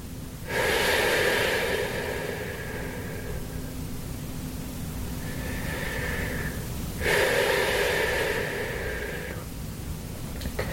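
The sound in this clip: Deep, deliberate breathing during a guided breathing exercise, drawn in with effort and released unforced: long, airy breaths, two loud ones framing a softer, shorter breath, with no talk.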